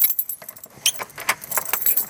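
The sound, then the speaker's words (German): A key is turned hard in the lock of a gallery door in Überlingen, making a few sharp metallic jangles and clicks of uneven loudness with short pauses between them. “muss den Schlüssel kräftig drehen, damit sich die Tür öffnet”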